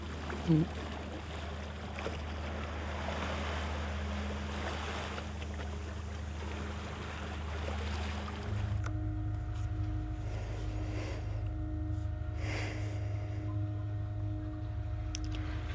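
Steady rumble and wash of water on a boat out on the open sea, a continuous loud drone with a low engine-like hum underneath.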